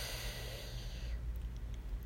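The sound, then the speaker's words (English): Slow, deep breathing during a guided breathing exercise: a steady, airy rush of breath that shifts character just past midway, as if turning from inhale to exhale, with no voice present. “and another deep breath in. Yes, breathing in and out, and hold it, and release,”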